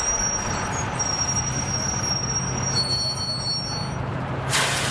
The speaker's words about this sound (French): Bon, me voilà à la gare de Lyon. Fin du voyage. Je suis sur le quai.